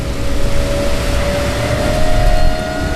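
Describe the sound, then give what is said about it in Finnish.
A hydrofoil water bus lifts clear of the water at about 17 knots, its engine giving a loud, steady drone with a thin, constant whine running through the whole stretch. “Nyt meillä on 17 solmun nopeutta ja vene lähti nyt kokonaan irti vedestä.”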